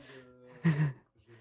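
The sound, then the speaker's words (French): Blowing on a CD taken out of the player gives one short, breathy puff of air, louder than the quieter tonal sound just before and after it. “Mais je vais enlever le CD, souffler dessus avec ma petite souffle juvénile.”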